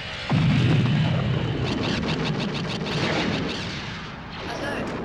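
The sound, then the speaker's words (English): Blaster weapons fire in a rapid volley of sharp, crackling bursts. The volley comes over a loud, rumbling roar that starts abruptly and fades toward the end. “Unauthorized weapons discharge.”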